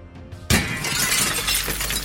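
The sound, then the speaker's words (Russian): Loud cracking and scraping of falling shards in a grotto: a sudden sharp crash, then a sustained, dense crackle and hiss of debris that continues to the end. “Треск. Громкий треск и скрежет осыпающихся осколков огласил грот, словно удар пульса, сотканного из сгустков магии.”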